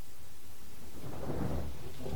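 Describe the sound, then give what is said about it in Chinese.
Rain falls at night as a sound effect behind a dramatized literary reading. It is quiet at first, then swells after about a second into a dense, steady patter with a low rumble underneath. “半夜2点左右，雨声淅沥可闻。”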